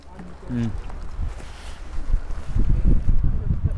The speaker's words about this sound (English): My windbreak on again. It's chilly in this wind.